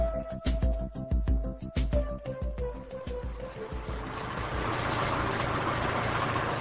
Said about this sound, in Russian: Wait a minute. Let me turn off my engine.